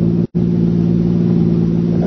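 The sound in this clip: A car engine running while the car is stuck on a roadside: a loud, steady low drone with a constant pitch, briefly cut out near the start, with no voices.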